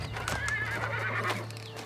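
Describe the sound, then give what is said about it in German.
A horse pulling a royal carriage gives a high whinny over steady clip-clopping hooves, with a low hum underneath. “Die königliche Kutsche. Sie ist ja seit Jahren nicht mehr vorbeigekommen.”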